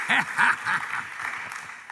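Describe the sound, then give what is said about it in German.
Applause from an audience, a bright patter of many hands, loudest at the start and gradually tapering off over two seconds. “Ein Applaus an alle unsere Online-Zuschauer.”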